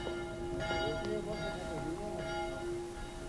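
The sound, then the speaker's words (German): A small bell rings faintly on a village piazza in Meolo, Italy, with a few soft strikes that leave sustained, steady ringing tones over a constant background hiss. “Diese kleine Glocke hörte ich, als ich über die Piazza in Meolo ging, hinüber zum Albergo, dem einzigen Gasthaus in Meolo.”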